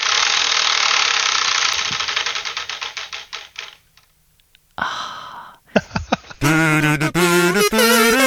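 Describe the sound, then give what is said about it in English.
A game show prize wheel spins with rapid, loud ticking that gradually slows and spaces out over about four seconds until it stops. After a short pause, bright musical tones ring out. “could you just sign off with one more spin of your own personal wheel, please?”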